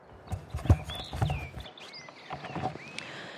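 Outdoor forest ambience with several high, whistling bird calls and chirps over a low rustling background. A couple of soft, low thumps come early on.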